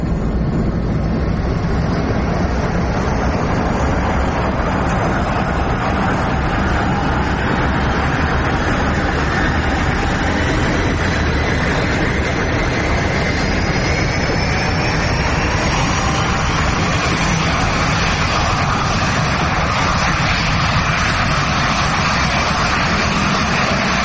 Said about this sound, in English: You're cleared for takeoff.